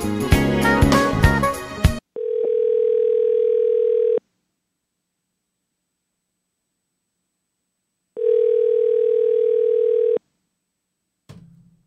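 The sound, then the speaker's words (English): Telephone ringing tone on an outgoing call: after a short burst of music, two steady, even tones of about two seconds each, separated by a long silence, with a brief sound at the end. “Do you want to call Tab? I kind of want to call Tab. All right. I think we could dial out.”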